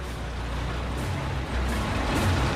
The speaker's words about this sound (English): Armed soldiers run alongside the large vehicle as it follows the armored personnel carrier. A tank arrives with more soldiers on foot and another vehicle following behind it.